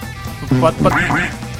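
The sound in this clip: A voice imitates a duck, giving a few nasal, squawky quacks with gliding pitch. The quacks are loud and stand alone.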